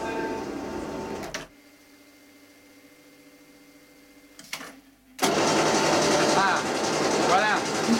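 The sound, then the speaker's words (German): Loud, steady mechanical roar of printing machinery in a print shop. It cuts out abruptly, leaving a low hum, then surges back just as loud while people talk over it. “Das ist Druckerei, ja.”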